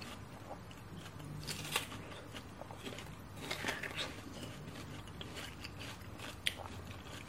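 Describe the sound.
Crisp bites and chewing of a juicy fruit with an apple-and-pear-like texture. A few sharp crunches stand out against steady, moist chewing throughout.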